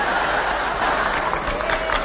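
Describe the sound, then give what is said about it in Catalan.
Applause from a theatre audience at a show, a steady, dense wash of many hands clapping that stays loud and continuous throughout. “Aquest aplaudiment no m'ha agradat gens.”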